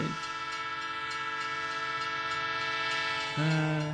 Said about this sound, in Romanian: Uite un tren.